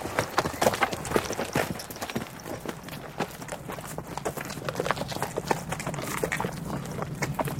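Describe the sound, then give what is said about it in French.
Horses galloping, a cavalry troop in pursuit, make a dense, continuous patter of hoofbeats at a steady fast rhythm, with no voices. “Qu'est-ce que c'est ? Des chevaux au galop ?”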